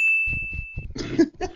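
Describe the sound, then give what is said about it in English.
A bell gives one bright, high ding that rings steadily for under a second and then fades. Lower, uneven clattering sounds follow. “Do I have permission to ring the bell on your show? Go right ahead.”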